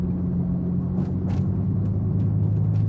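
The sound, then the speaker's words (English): Low, steady engine rumble of a car driving along a desert highway, a continuous droning hum with a few brief, faint higher whooshes passing over it. “the car moves along a highway.”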